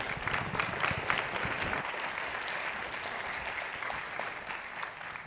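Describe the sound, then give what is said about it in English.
A church audience applauds to welcome a visiting pastor from Thrive Church in Apopka, Florida, with many hands clapping in a steady, continuous patter, slightly brighter and busier in the first two seconds before evening out. “So, Pinecastle, if you would put your hands together, and let's welcome Pastor Kevin.”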